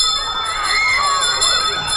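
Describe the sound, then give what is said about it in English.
A bell rings steadily for two seconds, a bright metallic ringing held at an even loudness with no voices over it. “that means it's time to ring the bell.”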